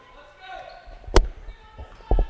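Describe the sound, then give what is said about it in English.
A basketball is dribbled on the court during a college game with the Salukis trailing by one, giving a few sharp, thudding bounces under a commentator's steady talk, with two quick bounces close together at the end. “Milner will bring the ball. Of course, Saluki's down by one now. Milner dribbling out near the left wing.”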